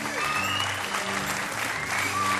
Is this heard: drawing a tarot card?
no